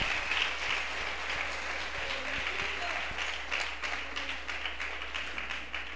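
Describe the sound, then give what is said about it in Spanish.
A church audience applauds with sustained, dense clapping that holds steady for several seconds, with voices mixed in beneath it. “Dele un aplauso a Él en esta hora.”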